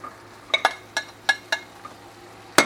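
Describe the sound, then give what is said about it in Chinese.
Utensils clink and scrape in a pan as spaghetti is added to a shrimp and pork cream sauce, with several sharp, irregular knocks over a low, steady hum. “好，都已经把它拌炒完之后呢，我们就加入意大利面喽。”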